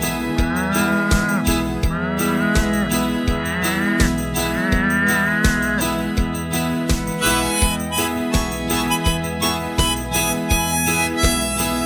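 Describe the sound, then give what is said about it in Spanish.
Cow mooing in a cartoon classroom scene, with a few drawn-out moos of wavering pitch over a continuous, layered background sound. “La única sabia fue la vaca.”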